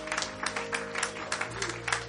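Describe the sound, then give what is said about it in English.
A church audience claps hands during a service, a faint, steady rhythm of evenly spaced claps continuing throughout. “Give the Lord a hand clap tonight.”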